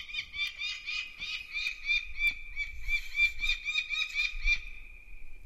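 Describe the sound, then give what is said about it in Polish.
Falcon calling: a long run of repeated shrill, harsh notes in a steady rhythm, fairly faint and heard alone without voices. “Tego głosu nie można pomylić z głosem żadnego innego ptaka, także każdy, kto chociaż trochę interesuje się ptakami, jeżeli raz tylko tego sokoła usłyszy, to na pewno zapamięta ten charakterystyczny głos”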